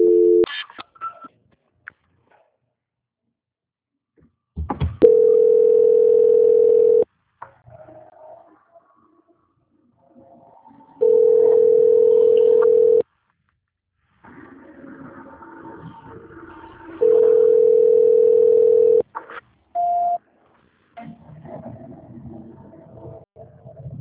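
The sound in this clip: Telephone tones during a call transfer: three long, steady, mid-pitched tones of about two seconds each, evenly spaced by roughly six-second gaps filled with faint line noise and clicks.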